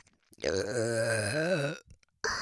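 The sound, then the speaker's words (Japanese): Repeated voiced burping right beside the ear: one long, drawn-out belch with a wavering, rumbling pitch lasting over a second, a short pause, then another burp starting. “でも、これ待ってたんじゃないですか？耳元からの連続ゲップ”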